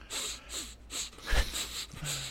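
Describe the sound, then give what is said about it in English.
A voice imitates loud, wet sniffling of someone crying: a rapid series of harsh, airy snorting sniffs at a steady rhythm, with one heavier, louder sniff midway and a short voiced whimper near the end. “now Camille has shifted from being like in this, going from rage to crying, to now she's doing ultra sniff.”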